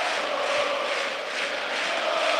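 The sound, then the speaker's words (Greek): Stadium crowd roaring at Toumba during a PAOK football match, a dense, steady roar that holds fairly loud throughout without a break. “Και φυσικά το κοινό ξεσηκώνεται στην Τούμπα από αυτές τις δύο προσπάθειες των διεθνών μας.”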